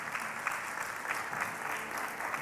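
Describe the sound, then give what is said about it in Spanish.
Applause in a church service, an audience clapping for the King of Kings, steady dense clapping that stays even and fairly quiet for the whole clip. “Vamos a dar un aplauso al Rey de Reyes en esta mañana.”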